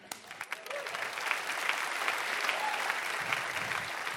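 Church audience applause welcoming the head of the children's ministry, opening with a few separate claps that quickly build into steady, sustained clapping from many people.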